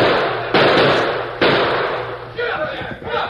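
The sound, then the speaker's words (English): Gunshots in a radio drama shootout: two loud, sharp reports with long rumbling decays, followed by a busier stretch where voices seem to shout. “What do you think I've been shooting at?”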